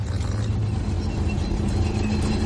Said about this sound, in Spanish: ¡Ya! El tanque va hacia ellos.